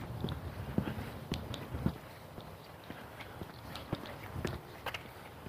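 Footsteps during a walk: an irregular series of soft scuffing steps over a constant low background noise, with no other clear sounds standing out.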